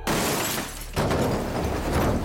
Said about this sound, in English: The airbags deployed, and everything became shattering glass, screeching tires, and crunching metal.